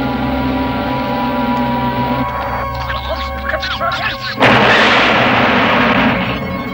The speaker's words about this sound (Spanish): Explosión en la zona de seguridad.